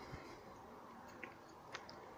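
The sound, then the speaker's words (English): Faint chewing of four-day-old 7-Eleven pizza: a few soft crunchy bites stand out over low, steady mouth noise, with no talking. “I'm munching on some pizza that I've been eating for the past 4 days”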